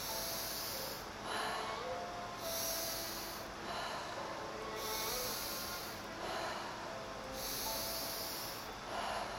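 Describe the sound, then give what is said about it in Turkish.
Slow, rhythmic breathing, drawn in through the nose and let out through the mouth. Soft, airy breaths rise and fall in a steady cycle of several breaths, faint and without other sounds. “burnumdan alıp ağzımdan vererek kendi ritmik nefeslerime devam”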